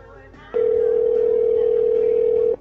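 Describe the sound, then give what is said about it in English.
A telephone rings on an outgoing call as one steady ringback tone at a single pitch, lasting about two seconds and standing clearly above a faint background hum. “Hopefully you can hear the ringing. Is that working for you guys?”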